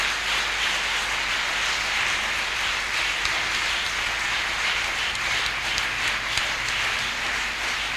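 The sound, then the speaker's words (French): A church audience applauds with dense, sustained clapping that stays loud and even throughout, without pauses or breaks. “Est-ce que nous pouvons acclamer la personne du Saint-Esprit”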